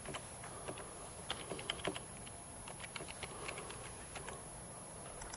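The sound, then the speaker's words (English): Typing of login credentials on a computer keyboard: faint, quick, irregular keystroke clicks in short bursts, alone with no talking. “Let me type in my creds.”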